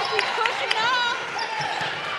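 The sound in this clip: A basketball dribbled up the court in a high school girls' district tournament game, its quick bounces thudding under an excited commentator's continuous talk and gym noise.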